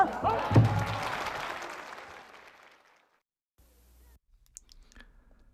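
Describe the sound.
Applause at a live pansori performance of Simcheongga: a dense burst of clapping with a few heavy thumps fades steadily over about three seconds, then gives way to near silence with a few faint, scattered sounds.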